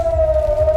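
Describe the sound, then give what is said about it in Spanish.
Air raid sirens sounding at dawn in Israel after the interception of a missile launch from Iran: one steady, loud, sustained mid-pitched wail that holds an even tone throughout, with no voices. “Es el sonido de las sirenas que saltaron después de que se interceptara el lanzamiento de misiles desde Irán.”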